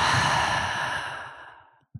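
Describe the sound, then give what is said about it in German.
A long breath is let out through an open mouth during a guided breathing exercise, loud at first and fading gradually over almost two seconds, followed by a short soft sound. “Tief einatmen durch die Nase. Und durch den geöffneten Mund aus.”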